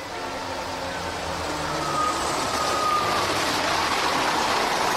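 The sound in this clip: The 22A bus pulls away with a broad, steady engine roar that swells slightly partway through, and a faint thin whine runs along with it.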